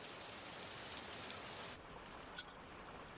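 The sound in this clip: Steady rain falls as a dense, even hiss. The level drops a little partway through and then continues, with one brief brighter patter.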